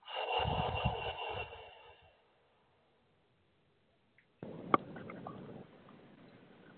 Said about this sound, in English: Last breath, big breath. And let it all go.